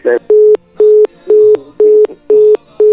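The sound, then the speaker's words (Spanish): Telephone busy signal after a dropped call: a steady mid-pitched tone repeats in even on-off beeps, about two per second, loud and alone with no talk. “se le cortó la llamada, parece, a Miguel”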